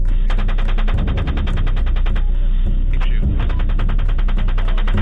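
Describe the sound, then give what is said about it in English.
Rapid, continuous gunfire in a neighborhood of clay walls, with bullets sprayed at passersby. Dense, evenly spaced shots rattle on without pause over a loud low hum throughout. “The fire shots continue. Bullets are shot towards Saeed, Namir, and other passerby.”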